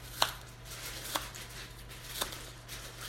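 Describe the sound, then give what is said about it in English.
A knife cuts, halves and cores a very small apple, making three sharp, separate strikes spaced about a second apart against a steady low background noise. “But I'm cutting it. I halved it. I'm coring it.”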